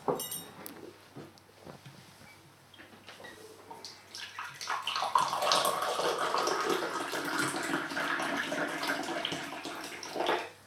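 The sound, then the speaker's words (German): Ginger tea poured from a pot into a cup, a quiet steady trickle of liquid that swells into a fuller, continuous splashing stream after a few seconds and holds until the end. “Das ist Tee, den ich aus einer Kanne gerade in Jos Tasse gegossen habe. Es ist keine Lüge. Ich mache das wirklich und es ist wirklich Ingwertee.”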